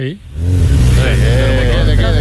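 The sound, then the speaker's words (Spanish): A motorcycle engine starts with a short dip and catch, then settles into a loud, steady rumbling idle with a constant low throb. “Encender un motor.”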